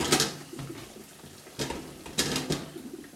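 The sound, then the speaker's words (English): Crockery clatters faintly as a bowl is taken out in a home kitchen, a few light clinks and knocks separated by quiet gaps, with the clearest touches near the start and later on. “Right, get a bowl out to put in them”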